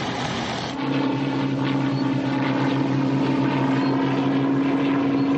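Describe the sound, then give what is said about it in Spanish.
Light aircraft droning over an island during a wartime search, a steady engine hum that swells slightly after the first second and then holds level and continuous, with no voices. “Avionetas y patrullas recorren la isla buscando al comando.”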